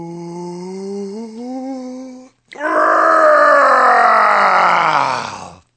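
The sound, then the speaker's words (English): A voice imitates a dragon's deep fiery breath: a long groaning, voiced intake, a brief silence, then a loud, broad rushing roar of exhaled breath that holds steady and fades at the end. “The dragon took another deep breath.”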